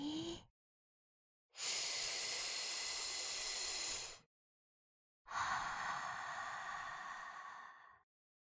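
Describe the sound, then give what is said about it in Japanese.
Slow, deep breathing: a short breathy fragment, then two long airy breaths of about three seconds each, separated by silence, soft and alone. “ここは一つ、深呼吸してみましょうか。一気に落ち着くと思います。ゆっくり。”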